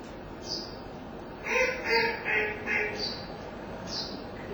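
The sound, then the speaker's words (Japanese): A bird gives a sharp, repeated 'pe pe pe' call in four quick, loud notes. Smaller birds chirp thin and high around it in a December setting where berry bushes have fruited. “ペッペッペッと鳴いた鳥の他に、細かい鳥も鳴いております。”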